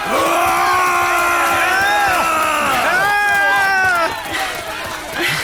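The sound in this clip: A crowd runs off on a signal, cheering as it goes: loud, sustained yelling and whooping from many voices, easing somewhat near the end before rising again.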